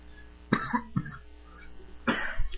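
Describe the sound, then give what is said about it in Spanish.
A man coughs in a few harsh, throaty bursts, two close together, then a longer rasping fit after a short pause, over a faint quiet background. “Perdón, le dio tos”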